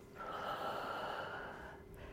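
A single long exhale during a guided breathing exercise, a steady rush of breath lasting well over a second before fading, with no talking.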